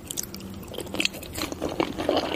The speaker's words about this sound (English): This appears to be a suicide girl eating sushi as an ASMR experience. What is this? Does the sushi have rocks in it?